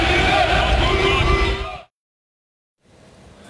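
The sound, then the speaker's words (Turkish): About fifty football fans chant and cheer at the Turkish national team's first training session in Los Angeles. Loud, massed shouting voices last nearly two seconds before cutting to silence, then faint background noise returns. “İdmanı izleyen yaklaşık 50 taraftar yaptıkları tezahüratlarla milli futbolculara desteğini gösterdi.”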